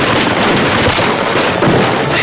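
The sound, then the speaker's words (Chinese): Dense gunfire during a battle ambush, a continuous loud barrage of overlapping shots and bursts that fills the whole clip without a break. “对面火力太猛，弟兄们扛不住了。奶奶，共军不是只有百十号人吗？这子弹打的”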